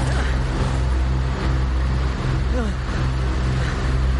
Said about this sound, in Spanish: El barco pasa de largo.